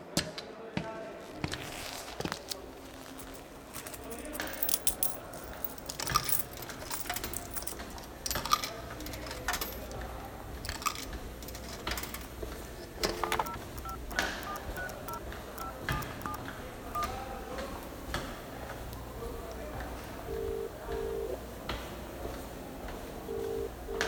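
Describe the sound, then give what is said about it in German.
Coins dropping into a coin payphone and a number being dialed, heard as many sharp clicks, clunks and short button tones scattered unevenly through the stretch, with irregular bursts of loudness. “Hier durch die Tür in dem Aufenthaltsraum. Da steht ein Münztelefon.”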